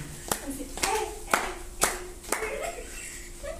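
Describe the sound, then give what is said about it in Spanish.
Hand clapping: five sharp claps land in an even, steady rhythm, each a crisp smack standing out from a quiet background with a faint steady hum. “¿Quién aplaudió? ¿Quién fue la señora que aplaudió?”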